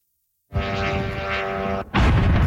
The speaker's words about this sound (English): It's the sound of a drone striking an apartment building in the capital of Kyiv.